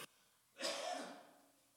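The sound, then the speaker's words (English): A person coughs once, a soft, breathy, rasping cough that trails off gradually, heard alone in a quiet setting. “If I can stop coughing.”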